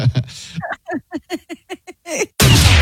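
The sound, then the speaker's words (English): A single loud gunshot fired at an orange inside a house bursts out near the end. Before it comes a run of short, evenly spaced vocal bursts. “now I'm going to shoot an orange in my house, and we'll see what kind of damage it does.”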